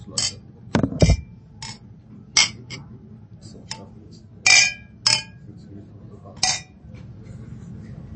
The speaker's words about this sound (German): irgendjemand hat doppelt angestoßen.